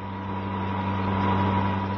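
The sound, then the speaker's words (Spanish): Steady car engine from a radio drama sound effect: a low, even drone with bright humming harmonics that holds at a constant loudness for the whole stretch, with no voices. “Mientras Diana Morris escapa en su auto rumbo a Tokio, llevándose en su maletín y dentro de la cajuela el casco de control cerebral”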